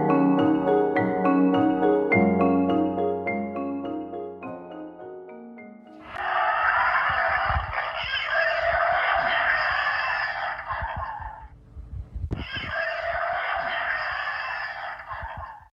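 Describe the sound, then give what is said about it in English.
Electronic calls from a robotic wolf device built to scare away bears: a loud, buzzy harmonic tone that steps downward in pitch, then two long, harsh, noisy blasts separated by a brief gap. “What you're hearing there is a robotic wolf that was created to scare away bears.”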